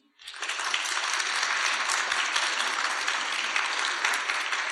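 Audience applauding at a live public festival recording to cast a vote, a dense, steady wash of clapping that starts abruptly and holds evenly loud throughout.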